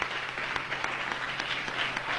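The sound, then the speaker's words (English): A church audience claps hands after a prayer, a dense, steady patter of many palms with a few sharper slaps standing out, loud and continuous throughout. “Let's give him a hand clap. Glory to God.”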